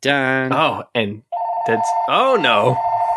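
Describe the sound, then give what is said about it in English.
A voice imitates a ringing telephone with a loud, sustained, warbling tone, mixed with other vocal sounds. “And the phone is ringing”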